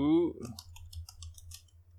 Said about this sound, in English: Click on the clickety clicks.